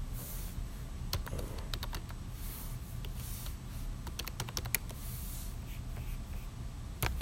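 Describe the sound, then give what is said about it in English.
Typing on a Microsoft computer keyboard, faint and alone, with quick clusters of many light key clicks separated by short pauses. “this is not a bad keyboard. It's a Microsoft one, but I don't know what model.”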